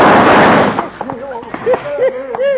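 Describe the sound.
A loud burst of gunshots from a gunfight in an old-time radio western drama crashes out at the start, then dies away as men's voices take over.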